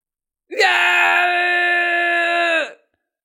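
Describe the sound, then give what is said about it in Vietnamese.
A man lets out one loud, sustained shout while fighting back, a single unbroken cry held for about two seconds at a steady pitch that dips slightly as it cuts off, with silence before and after. “Tử Nhật Thiên Quân hét lớn, dùng hết khả năng để chống trả”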